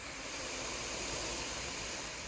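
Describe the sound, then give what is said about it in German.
An inhalation through the right nostril during an alternate-nostril breathing exercise: a steady, airy rush of breath lasting about two seconds, heard alone with no talk. “Rechts öffnen, rechts ausatmen. Rechts ein,”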